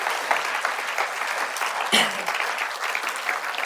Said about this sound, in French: Est-ce que ce matin, on peut applaudir toutes les mamans dans ce lieu